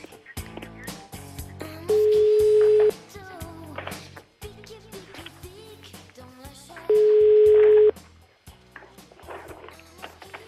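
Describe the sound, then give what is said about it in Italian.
Telephone line tone after a dropped call: two steady, mid-pitched beeps, each about a second long and about five seconds apart, over a busy, murmuring background. “Che stai facendo lì che cade sempre la linea?”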